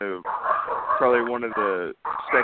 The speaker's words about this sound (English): I'm going to make these dogs quiet. This is, I usually don't have this sort of a problem.